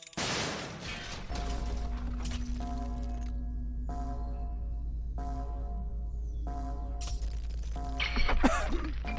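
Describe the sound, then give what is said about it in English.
Something tightened by a mechanical device gives off loud grinding, rattling bursts that start and stop several times over a constant low hum, growing harsher and clattering near the end. “Okay, I think I've got it. Tightening in 3, 2, 1.”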